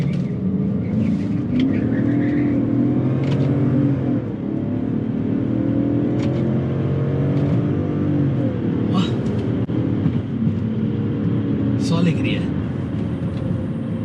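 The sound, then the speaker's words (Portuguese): A car pulls away in first gear on a road, its engine a steady, loud low drone with a rumbling, layered tone that holds throughout. “pôr em primeira marcha e vamos embora”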